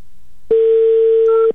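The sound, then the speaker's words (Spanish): A telephone call rings through as one steady, even electronic tone held for about a second after a brief quiet lead-in, with no voices. “Venga, ya entró otra vez la llamada, ya está sonando.”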